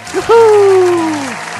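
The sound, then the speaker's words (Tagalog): Audience applause at a talk show, a broad wash of clapping running under a voice that speaks over it. “So palakpakan, palakpakan. Thank you, welcome.”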